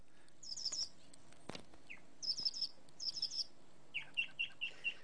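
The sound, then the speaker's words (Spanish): High-pitched birdsong of trills and chirps arrives in several short bursts, with a longer string of repeated notes near the end, and no voices. “en el capítulo 21 cuenta los distintos trinos de los pájaros y cuenta cuáles son, según Hudson, los trinos que a él más le gustan”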